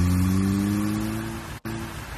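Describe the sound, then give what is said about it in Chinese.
A sedan's engine accelerating hard, a droning, harmonically rich engine tone that slowly eases in loudness. It is cut by a brief sharp dropout near the end before the engine sound resumes. “曾敏没有回答他，猛地一踩油门，轿车飞快地向西都的方向开去。”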